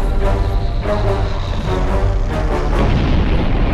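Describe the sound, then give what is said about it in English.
A bomb explodes during an air raid by German aircraft bombing an airfield, heard as a loud, continuous heavy roar and rumble with repeated booming bursts throughout. “that bomb exploded near Hans' neighborhood”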